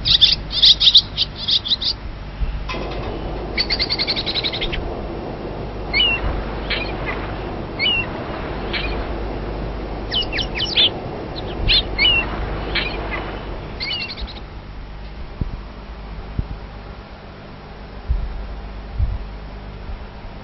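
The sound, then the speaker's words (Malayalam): A pigeon calls with low, hooting coos, mixed with sharp chirps from birds. The chirps cluster in the first fifteen seconds over a steady background hiss. “നാം നിത്യവും കാണുന്ന പക്ഷികളിലൊന്നാണ് പ്രാവ്.”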